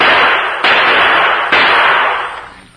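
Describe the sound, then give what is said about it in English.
Gunshots from a gun fired at a target during marksmanship practice at a camp: a few sharp, loud reports, each trailing into a long hissing decay that fades away at the end. “That's good shooting, Drew.”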